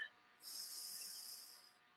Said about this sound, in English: Take a deep breath.